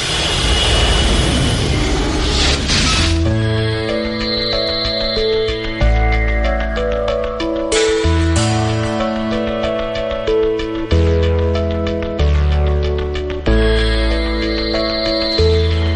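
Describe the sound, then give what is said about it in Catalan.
A spaceship takeoff sound effect after a countdown: a loud roaring rush for about three seconds, then a sustained synthesized musical passage of steady tones and shifting chords. “Som a punt d'enlairar-nos amb la nau La Fell Lluna. 2, 1, 0.”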